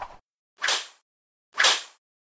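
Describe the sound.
Whip strikes land in quick succession, three sharp swishing lashes about a second apart, each a bright burst that fades quickly, loud and with no other sound between them.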